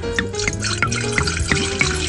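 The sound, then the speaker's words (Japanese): Liquid pours into a cup as a drink is served from the top without stirring up the sediment, giving many small drips and light splashes in an uneven trickle. “そうちょっと継がさせていただきますね。まずは、オリを混ぜずにお飲みいただきます。”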